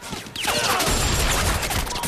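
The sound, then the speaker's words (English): Gunfire in a shootout, with dense, loud, overlapping shots and sharp impacts running continuously. “Kruger and de Kirk keep shooting, managing to dispatch some of their attackers. Sparks fly everywhere.”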